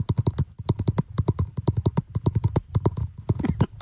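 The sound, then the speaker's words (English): Teeth clicking used to keep time like a metronome: many sharp, dry clicks in a fast, fairly steady rhythm, heard alone without talk. “He would kind of like click his teeth almost like a metronome to keep time.”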